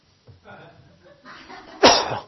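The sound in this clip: A single sharp, loud cough clearing the throat during a church sermon, following a stretch of low, murmuring vocal sounds, then trailing off with a short rasp.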